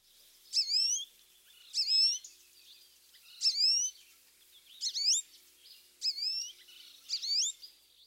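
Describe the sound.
American goldfinch giving its whiny call: six high, nasal, slurred notes with bright harmonics, spaced about a second apart, clear and alone with no talk.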